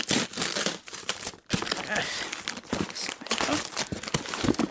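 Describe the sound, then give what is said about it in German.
Paper crinkling and tearing as a parcel wrapped in glitter paper with a large bow is opened, with many dense rustles and crunches and one short pause partway through. “Wer schickt mir denn ein Paket? Komisch, da steht gar kein Absender drauf. Ich mach's mal auf.”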